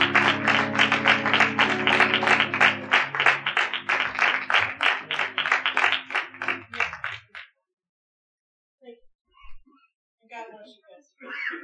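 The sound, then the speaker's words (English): Rhythmic, steady applause from a church audience welcoming an evangelist, with claps in an even beat over sustained musical tones for about seven seconds. Then it falls quiet, and a voice speaks briefly. “So I want you to put your hands together tonight and welcome the woman of God, the evangelist Denise, and she comes to minister to you.”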